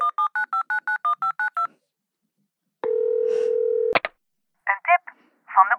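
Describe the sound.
A telephone number is dialled on a keypad for a live call: ten quick, evenly spaced touch-tone beeps, then a pause and a steady electronic line tone lasting about a second. A sharp click follows, then a few short warbling electronic bursts.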